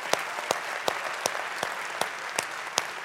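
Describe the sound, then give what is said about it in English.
Church audience at Olson Farms clapping their hands together to welcome each other: dense, steady applause with a few sharper individual claps standing out at irregular intervals. “Come on, church, let's put our hands together. Welcome each other today.”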